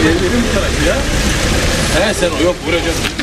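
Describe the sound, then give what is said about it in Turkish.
Cars idling in an evening traffic queue at the exit of Belgrad Forest in Istanbul, a low continuous engine rumble under a person talking throughout. “Saat 7:10 geçeden beri şurada bekliyorum. Belgrad Ormanı'nın çıkışında akşam saatlerinde araç kuyruğu uzadıkça uzadı.”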